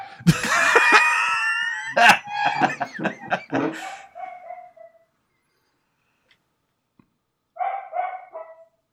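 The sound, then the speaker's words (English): Dogs barking in a loud, rapid series of harsh barks that carry on for about five seconds, then stop, before a shorter cluster of barks breaks out near the end. “Sorry about the dogs, everyone. I'll do my best to edit them out.”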